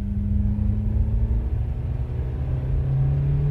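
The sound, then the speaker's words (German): A car driving on along a road: a steady, loud low engine rumble with a faint droning tonal hum that holds throughout, alone with no voices. “Die Katze lag zwischen uns, als wir weiterfuhren. Rees saß am Steuer.”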